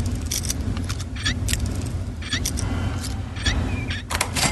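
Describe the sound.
Metallic jingling and scraping accompany a bobby pin picking a hard lock in a Fallout video game, continuous and fairly loud over steady background game noise.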